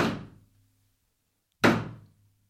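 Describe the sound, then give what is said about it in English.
Two heavy, hollow thuds of sea turtle shells banging against a ship's hull in the middle of the ocean. Each knock is loud and fades over about half a second, with a clear pause between them. “banging on the hull of the ship. And that sound would have been the banging of sea turtle shells.”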